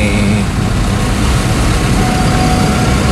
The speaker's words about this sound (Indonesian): Ini ruang genset.